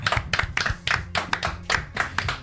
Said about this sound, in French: et on les applaudit